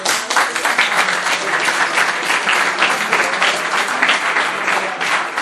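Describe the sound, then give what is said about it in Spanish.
Audience applause for a volunteer at a talk: dense, steady clapping from many hands that holds at an even level from start to end. “No, un aplauso.”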